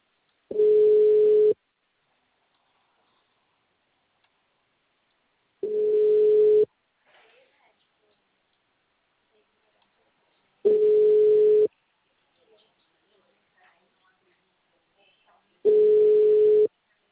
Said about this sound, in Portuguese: Vou ligar pra ela.